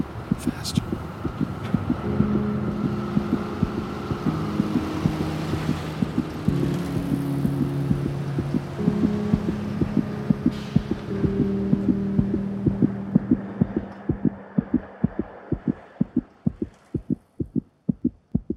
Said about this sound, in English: All she knew was her heart was beating faster and faster and faster.